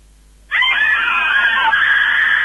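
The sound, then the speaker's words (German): Women screaming hysterically as a door is opened: after half a second of near quiet, a shrill, high-pitched chorus of screams bursts in suddenly and holds loud and wavering to the end. “Weißt du, wenn ich die Tür aufmache, brüllen die mir entgegen, vollkommen hysterisch.”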